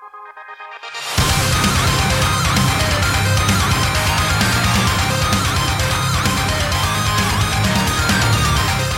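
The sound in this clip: Loud, dense rock music from a band: a brief quieter tonal intro, then the full band crashes in with pounding drums and heavy distorted guitars, sustained at full volume throughout.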